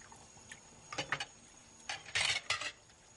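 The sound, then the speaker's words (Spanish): Dishes are washed in a kitchen at night, with faint, scattered clinks and clatters of plates knocking together in a few short bursts over a quiet background. “Leonor lava platos en la cocina”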